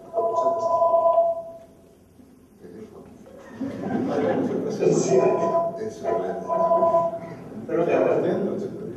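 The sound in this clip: A telephone rings for an incoming call, its steady tones returning in a few separate bursts beneath people talking.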